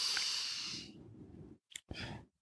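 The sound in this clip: A loud breath exhaled like a sigh, a long breathy hiss, followed by a brief click and a short second burst of breathy noise.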